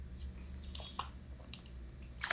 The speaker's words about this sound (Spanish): Un poco de agua para humedecer la garganta.